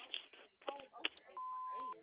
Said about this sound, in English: Please leave a message at the beep.